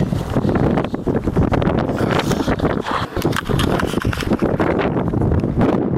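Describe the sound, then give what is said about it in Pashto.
Strong wind blows dust across an area in Afghanistan's Sangin district. It makes a loud, continuous, roaring rumble that buffets the microphone, with gusty surges throughout. “سیمه ټوله باد او دوړو پر سر اخیستې ده.”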